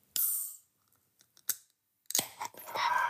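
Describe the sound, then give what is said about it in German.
A craft beer bottle being opened gives a few quiet, sharp clicks and short noisy bursts, separated by near silence, ending in a longer airy rush. “D, ja, geiles Bier muss ich haben. Und deswegen probiere ich das jetzt. Also machen wir mal auf.”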